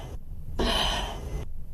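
A breath drawn in before mouth-to-mouth rescue breathing during a CPR demonstration: a single airy, breathy inhale lasting under a second, clear against a low background rumble.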